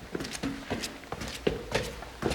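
Footsteps climbing stairs in a high-rise tower. A steady series of soft thudding steps with light scuffs keeps an even walking pace, fairly quiet.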